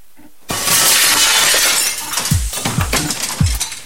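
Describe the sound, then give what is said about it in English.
A glass pane in the back door of a house is smashed: one loud, sharp shatter, followed by scattered bright tinkles of shards falling over the next few seconds. “smashes the door pane.”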